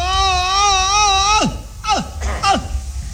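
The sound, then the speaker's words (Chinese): A stylised Peking opera cry of an old-man role, sung by a male voice: a long wavering, vibrato-laden wail, then three short sobs that each drop sharply in pitch. “京戏的这个哭是用了夸张的手法， 哦， 跟我们生活中的那个哭啊有很大距离。 对， 老生一哭是这样。”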